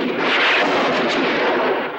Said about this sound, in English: From a rock ledge above the cabin, Janish shoots at Jonas.